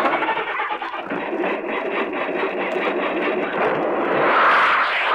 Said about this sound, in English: Start the rocket. Yellow. Hurry.